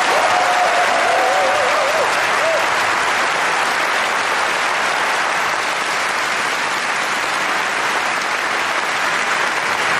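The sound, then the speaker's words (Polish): Audience applause for a national symphony orchestra at a live concert: dense, steady clapping from a large crowd that holds at an even, loud level for the full ten seconds without fading. “Poproszę o oklaski dla nich.”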